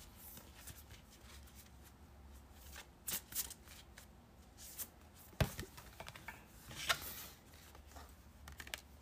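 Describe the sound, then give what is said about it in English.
A deck of cards being shuffled: quiet, irregular riffling and soft papery flicks, with a few sharper louder snaps scattered through, and no talking. “those cards were not trying to come out, and I kept on dropping a lot of cards.”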